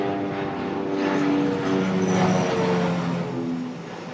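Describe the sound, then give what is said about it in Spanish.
An airplane passes overhead as a steady, broad rumbling drone with a low tonal hum, loud throughout and swelling slightly toward the middle before easing off. “Y hasta que termine de pasar el avión.”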